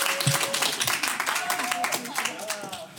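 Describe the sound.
Applause at a school music quiz competition, a brisk burst of many hands clapping that slowly tapers off, with voices talking over it.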